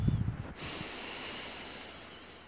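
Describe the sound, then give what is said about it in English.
A person takes a slow, deep breath in during a calming exercise. A short rough snuffle comes first, then a soft airy inhale that lasts about two seconds and gradually fades. “Just calm down and breathe with me. Let me stroke your hair and breathe with me, okay? Come on, in.”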